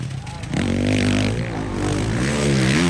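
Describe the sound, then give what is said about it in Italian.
Motorcycle engines roar on a motocross track with hills, dips, dirt, sand and bumps: a steady, loud engine drone with wavering revs that climb near the end, under voices. “una pista da motocross. Ci sono salite e discese, c'è il rumore dei motori”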